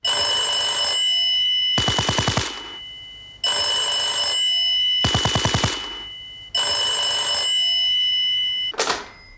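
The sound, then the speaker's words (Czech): A radio show jingle made from a telephone ringing: sustained electronic ring tones alternate with three rattling bell trills, repeating in a steady pattern and ending with one short final burst, loud and clear with no speech. “Takovouto podobu měla znělka pořadu.”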